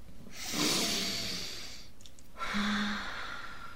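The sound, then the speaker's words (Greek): Deep breathing in and out during a relaxation moment before a children's story: two long, airy, breathy rushes of breath separated by a brief pause, heard alone without talk. “πρέπει να πάρουμε άλλη μια βαθιά αναπνοή, να βγάλουμε τον αέρα και να καθίσουμε χαλαρά χαλαρά.”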